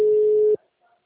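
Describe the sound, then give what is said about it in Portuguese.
A telephone busy signal: one steady, mid-pitched tone sounds for about half a second and then cuts off abruptly, leaving near-silence. “Hoje eu liguei bastante, porém ninguém tá atendendo. O número está ocupado.”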